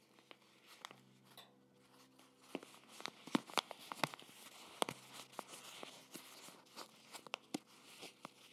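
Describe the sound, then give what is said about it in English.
Crinkling of a paper bag of seaweed being handled: many irregular crackles, rustles and sharp crisp snaps, quiet overall with no talk. “It's a paper bag. This is a bag of seaweed that I got a few months ago”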